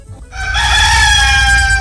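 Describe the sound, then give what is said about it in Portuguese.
A rooster crows in one long, loud, sustained call that holds a steady pitch after a short, quieter start. “É, rapaz, deixa o galo cantar, meu amigo.”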